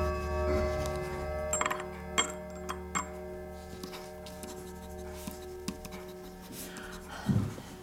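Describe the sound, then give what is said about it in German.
A pen scratches on paper as someone writes out a will, giving soft, irregular strokes and a few sharper ticks of the nib, all quiet with no talk over them. “Was schreibst du, Liebling? Ich schreibe mein Testament.”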